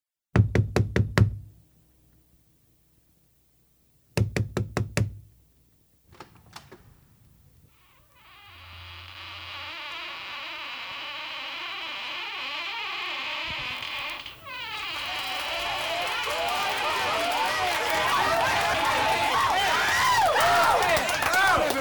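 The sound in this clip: A soul record opens with two loud bursts of rapid knocking, then a short pause. A dense wash of crowd chatter and party noise follows, swelling and growing fuller, with voices mixed in.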